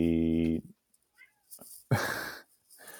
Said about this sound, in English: my cat's at the door meowing.